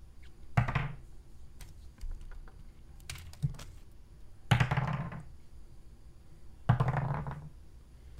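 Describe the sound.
Dice rolled for a tabletop role-playing game clatter in a few separate bursts. Each is a sharp knock followed by a short rattling decay, three louder than the rest, with softer clicks between and no talk.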